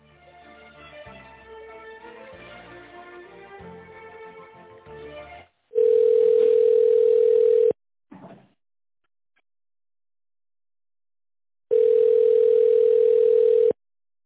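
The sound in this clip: Telephone line tone while a business call is transferred to an accountant: two long, steady, mid-pitched tones of about two seconds each, separated by silence, after an earlier stretch of melodic sound.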